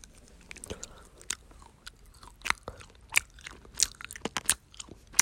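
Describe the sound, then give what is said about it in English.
Honeycomb eaten up close, many sharp, crisp crunches and wet bites coming at an irregular pace. They range from soft to loud over a quiet background, with no talking. “so this is hard to take out this honeycomb.”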